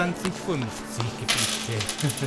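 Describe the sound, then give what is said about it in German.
Coins drop onto a counter during payment, a string of many small metallic clinks and rattles in quick, uneven succession, fairly faint throughout. “Vater Steinbach bezahlt.”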